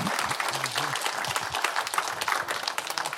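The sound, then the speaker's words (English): Church audience at Harvest Bible Church applauding to welcome a speaker: dense, steady clapping that fills the whole three seconds at an even loudness. “Let's give him a good warm Harvest Bible Church welcome.”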